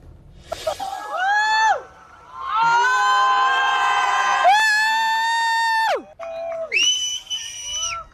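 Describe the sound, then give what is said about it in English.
A crowd in Spain cheers during a total solar eclipse, with high whoops and sustained shouting voices in several loud bursts separated by brief pauses. “That was the sound of people cheering in Spain as totality was happening above them.”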